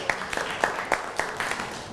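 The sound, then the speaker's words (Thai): A handful of sparse, irregular hand claps from a group in a class session, soft and uneven rather than a full ovation, over a faint background hiss. “ปรบมือให้ตัวเองหน่อยครับ”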